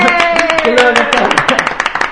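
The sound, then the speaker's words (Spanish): An audience at a live music broadcast applauds loudly, with quick, dense clapping and voices calling out over it for a couple of seconds. “¡Aplausos!”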